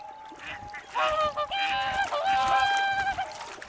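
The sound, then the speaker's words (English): Swans heading north call while looking for a nesting spot: a few loud, honking, trumpet-like calls that overlap one another above a steady background hiss. “looking for a place to breed. These swans pair for life and pick a spot where they want to nest.”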